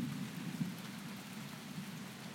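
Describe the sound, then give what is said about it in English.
A thunderstorm heard from a doorway: faint, steady rain hiss with a low rumble of thunder beneath it, continuous and unbroken throughout. “We needed this storm. I hope it goes on for a while.”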